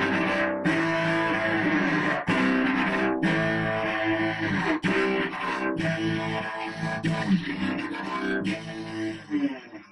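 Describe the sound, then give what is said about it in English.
Distorted, metal-style cello playing: gritty, heavily overdriven bowed notes with a rough buzzing edge, driving forward in firm rhythmic strokes at steady volume. “And we can play metal cello, which sounds distorted.”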